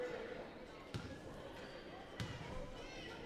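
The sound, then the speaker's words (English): A basketball bounces twice on the court as a player sets up at the line for a one-and-one free throw. The two dull thuds land about a second apart under steady talk and background crowd noise. “Bounces the ball twice, bends the knees, ball's on its way, and the shot is good.”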